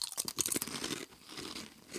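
People bite into and chew food, producing many crisp crunches in rapid succession, faint overall and busiest in the first half before settling into softer chewing.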